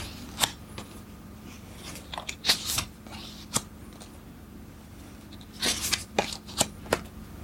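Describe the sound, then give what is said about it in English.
Playing cards are fanned out during a card game, giving many short, crisp flicks and papery snaps in irregular bursts, fairly faint and heard alone. “Fan out so I can see four cards, but no match, so I carry on.”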